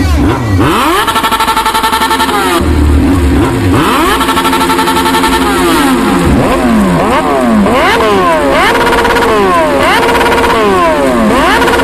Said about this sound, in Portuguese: Acelera! Acelera! Acelera tudo!